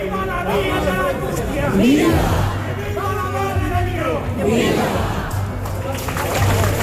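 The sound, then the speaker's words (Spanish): Crowd cheering and shouting as a statue of the Virgin is carried out of a basilica in a religious procession. The dense mass of voices holds at a steady, loud level throughout, with individual shouts rising above the din. “El sonido de la salida de la Virgen de las Angustias desde su basílica era este que van a escuchar.”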